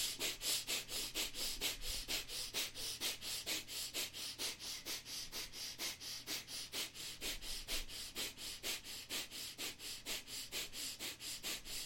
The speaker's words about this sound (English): Start breathing quick, short breath from the belly. You inhale, the belly comes out. You exhale, the belly goes in.